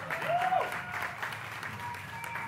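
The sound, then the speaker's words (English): Audience applause greets a new speaker being welcomed to the stage at a live event. The dense clapping runs steadily for the whole clip with a few crowd whoops mixed in. “Make some noise for Bruce. Bruce always tries to be a good host. Give it up for Bruce.”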